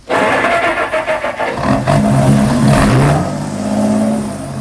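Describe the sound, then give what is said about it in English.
A car motor starting in falling snow: a quick series of rhythmic starter cranks, then the engine catches and revs to a loud hum before settling to a steadier running tone. “The fellow at the wheel didn't look round as we got in. He started the motor.”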